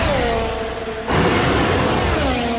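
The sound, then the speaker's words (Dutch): Racing car engines howl on the Zandvoort circuit, a loud, continuous high-pitched whine whose pitch sweeps downward as cars pass, joined by a broader roar midway. “Ja, volgend jaar horen we niet meer dit geluid op het circuit van Zandvoort.”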